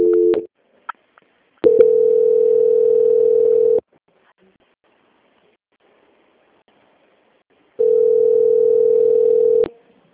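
Telephone ringback tone plays while a call is being transferred: two long, steady, mid-pitched tones of about two seconds each, separated by a long silence, with a few faint clicks before the first.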